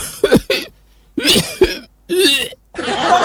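An old man coughs in a few harsh, throaty bursts separated by short pauses, loud and close, with no talk.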